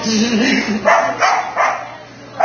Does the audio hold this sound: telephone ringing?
no